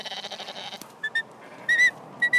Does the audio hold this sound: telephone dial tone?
no